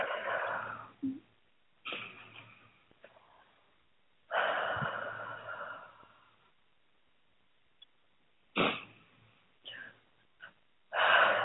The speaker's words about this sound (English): And take three nice deep breaths.